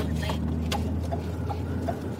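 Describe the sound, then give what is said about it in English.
Car driving along a secluded one-lane gravel road: a steady low engine and tyre rumble runs through the whole clip, with a few faint voice-like sounds over it. “It's secluded out here as we drive along the one-lane gravel road that leads to a dead end and the Houcks farm.”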